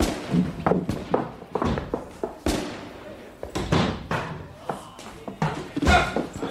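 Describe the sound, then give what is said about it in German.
Heavy thuds of a door being forced open in a French setting, many loud, irregular blows and bangs following one another over several seconds. “Lucien, lass sie ruhig die Tür aufbrechen, dann sprengst du sie an.”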